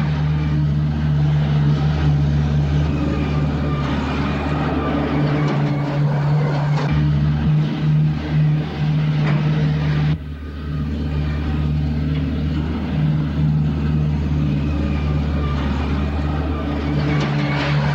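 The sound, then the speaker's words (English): A heavy loader engine runs as the machine drives past mine buildings, giving a continuous low droning rumble with a strong steady hum and a brief dip in level partway through. “Bopper starts the engine, then moves out. Bopper drives the loader past mine buildings.”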